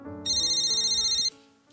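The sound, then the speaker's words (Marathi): A landline telephone rings in a single rapidly trilling electronic burst lasting about a second. The warbling tone is loud and clear over a faint lower hum, then cuts off abruptly. “बरोबरची त्यांची चर्चा संपली तेव्हा बाहेरच्या लँडलाईनचा phone ओरडू लागला”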